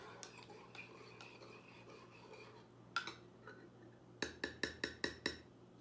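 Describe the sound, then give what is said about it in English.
A spoon clinks against a cup while a keto peppermint mocha coffee drink is stirred. Scattered light clinks sit over a low hum, then end in a quick, regular run of six sharp taps. “The coffee in this, it's half of this and half of that. Stir it up.”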